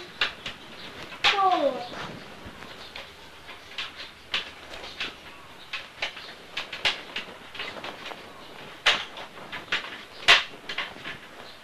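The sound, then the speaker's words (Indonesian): Doors being opened in a quiet house: a scattered series of faint clunks and sharp clicks, with a brief creak near the start. “Eh, sekarang pintunya dibuka semuanya.”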